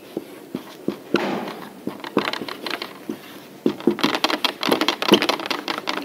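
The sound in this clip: Scratchy strokes and taps of Greek letters being written by hand come in many short, uneven bursts that grow busier and louder toward the end, with no talk.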